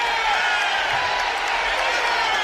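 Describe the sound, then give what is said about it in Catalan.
A football crowd boos a player during a Palma match, a steady, dense roar of many voices that holds at the same loudness throughout. “Bronca del públic en Piqueras.”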